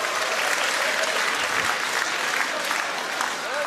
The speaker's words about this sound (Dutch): Beste CDA'ers, wat een geweldige avond. Juich maar even.